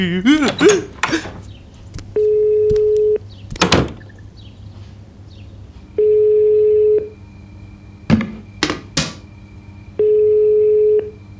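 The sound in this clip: Telephone ringing for an incoming call: three long, steady mid-pitched electronic tones separated by pauses, with sharp knocks and rustling clatter in the gaps between rings.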